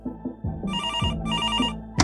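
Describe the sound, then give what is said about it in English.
Telephone bell rings in two bright, rattling bursts separated by a short gap, sounding over a steady lower tone. “Hey, Ralph Nader's on the phone.”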